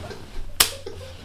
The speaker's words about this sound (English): That was the sound of my foot kicking his ass.